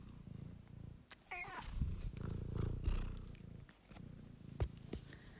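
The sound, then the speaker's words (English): A pet cat purrs in a soft, continuous, low rumble that stays fairly steady, with slight swells in loudness and no voices. “That is the sound of my cat, Marble.”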